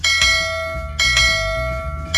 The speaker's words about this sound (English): A perfect bell ring.